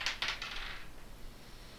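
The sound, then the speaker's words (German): Dice rolled during a tabletop role-playing game: two quick, sharp clacks, then a light rattle that fades out quickly, alone and fairly faint. “würfel bitte einmal”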